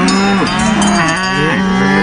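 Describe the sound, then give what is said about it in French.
Cattle moo in Savoie: several loud, drawn-out low moos overlap and bend up and down in pitch, sounding continuously with no talk. “Et les vaches de Mélinda sont prêtes à manifester si nécessaire.”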